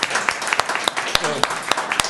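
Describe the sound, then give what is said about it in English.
Audience applause fills a public meeting as an advisory committee is recognized: dense, steady clapping with sharp individual claps standing out, and a voice briefly speaking over it. “So give a round of applause for you.”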